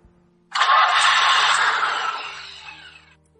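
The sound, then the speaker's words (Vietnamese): A car engine cranks and catches, then runs with a steady roar as the car turns and drives out of a garage. The sound starts abruptly after a brief quiet and fades gradually toward the end. “Cố Nghiên Thu khởi động xe, kỹ xảo thành thạo mà quay đầu, đi theo hướng dẫn, rời khỏi gara.”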